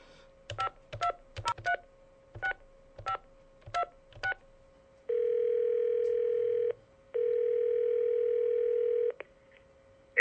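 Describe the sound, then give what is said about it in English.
A telephone dial tone hums steadily under a quick run of sharp keypad beeps as a number is dialed. Two long, even buzzing ring tones follow, separated by a short gap, and a click comes at the end. “So let's give Homer a call, shall we?”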